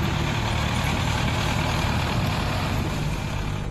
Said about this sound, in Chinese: 舱斗装满之后，将油沙豆块茎倒进运输车辆，装车犁田。